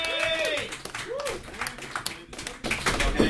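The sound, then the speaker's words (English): An audience claps for a comedian taking the stage at a stand-up comedy show, with steady, brisk applause throughout and voices calling out over the clapping. “Please put your hands together, everybody, for SM Shrake, everybody.”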